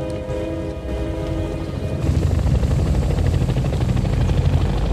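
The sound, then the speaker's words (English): Helicopters approaching a bridge: a continuous rhythmic rotor chop with a dense low rumble that grows noticeably louder partway through and then holds steady. “The choppers approach the bridge.”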